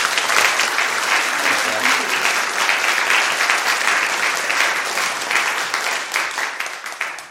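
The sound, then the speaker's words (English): Audience applause welcoming a speaker at the West End Festival: dense, sustained clapping from a crowd at a steady high level that thins and fades toward the end. “Please give a warm West End Festival welcome to Alistair McIntosh.”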